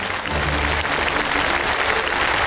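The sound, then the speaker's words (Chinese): Applause from an audience welcoming a Peking opera master: loud, dense, steady clapping that holds at an even level from start to end with no pauses. “让我们掌声欢迎京剧名家朱世慧老师，”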